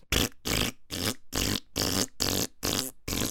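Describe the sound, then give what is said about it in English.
Fart sounds: eight loud, blunt, breathy bursts of similar length come in a steady, almost marching rhythm, each separated by a short silence, with no talking. “Get your fart walk on. Fart walk, fart walk.”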